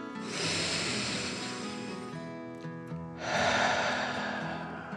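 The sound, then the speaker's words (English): A deep breath in and out: two long, airy swells of breath, the second louder, over a soft steady tonal background. “Charlie took a deep dragon breath in and out”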